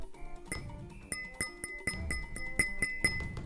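Glass of sparkling wine clinking: several bright, ringing pings with sharp onsets at an uneven rhythm, each tone lingering briefly over a soft, busy background.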